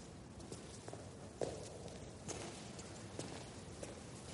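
Footsteps of a woman climbing stairs, a few faint, irregularly spaced steps with soft thuds and one slightly sharper tread, heard alone against a low background hum.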